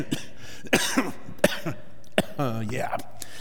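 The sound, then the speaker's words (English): Coughing from a person reading a passage aloud: several sharp, throaty coughs come in separate bursts, with brief voiced sounds and speech between them. “I was doing so good. I thought, if I could just get through this without coughing, I'm okay.”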